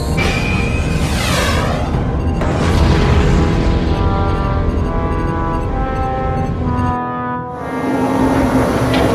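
A sci-fi plasma bolt is fired from a spaceship inside a planetary atmosphere and explodes. A loud, sustained rumbling roar carries sweeping whooshing tones, dips briefly near the end, then swells again.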